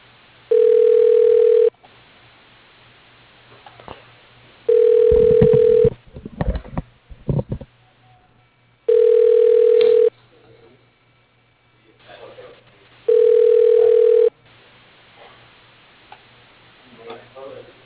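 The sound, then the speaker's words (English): A telephone ringing tone plays while a transferred call connects: four steady, mid-pitched tone bursts, each about a second and a half long, evenly spaced with quieter gaps and faint clicks between them. “Otherwise, please listen to the following options. For Brian Boyd, dial 13. Tom Brand, 31. Liz Caballero, 20. Your call is being transferred.”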